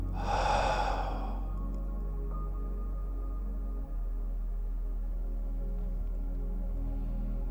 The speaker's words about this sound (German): Körper entspannen. Aus durch den Mund.